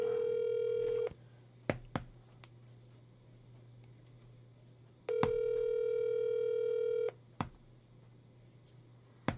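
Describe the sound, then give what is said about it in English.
Telephone ringback tone while placing a call: two steady, buzzy ring tones, the first cut short and the second about two seconds long, separated by a few seconds of quiet line hiss with faint clicks. “I'm going to call them. Here we go. Just pay attention now. Here we go. We're calling and see what's happening.”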